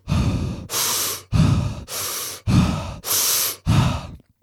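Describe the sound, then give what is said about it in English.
Big breaths drawn in and pushed out through the mouth, seven loud airy breath sounds in a steady even rhythm, each lasting about half a second, heard alone without talk. “So you take big breaths in and out.”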